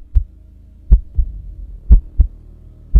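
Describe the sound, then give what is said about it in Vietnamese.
Heartbeat thumping in a chest: six deep, low thumps arrive in a steady lub-dub rhythm, mostly in close pairs, over a faint low hum, with no voices. “ông mơ hồ có thể nghe rõ tiếng tim của mình đang nhảy thình thịch trong lồng ngực.”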